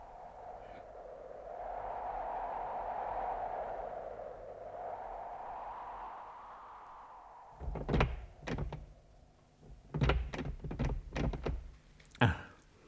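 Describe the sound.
A locked temple door is tried, giving several dull thuds and rattles that come in short, uneven clusters after a long quiet stretch, fairly faint overall.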